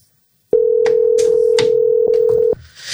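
An outgoing telephone call rings: one long, steady ringback tone of about two seconds starts abruptly and then cuts off, with a few brief clicks and noises over it.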